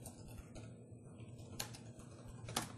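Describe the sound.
Faint, sparse clicks of someone typing credentials on a computer keyboard, with a few isolated keystrokes spaced apart over a quiet background.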